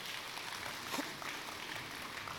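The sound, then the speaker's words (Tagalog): A church audience applauds in praise of God, a faint, steady wash of clapping that holds at an even level throughout without clear breaks. “Sagin himo ni Jesus para sa palakpakan tabi ang Dios one more time because He's good.”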